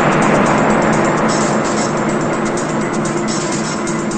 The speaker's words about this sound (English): It's nighttime as an old beat-up blue car drives down a hill toward a city.